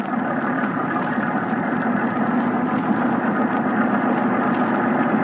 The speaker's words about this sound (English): Ahoy! Motorboat! I'm coming aboard.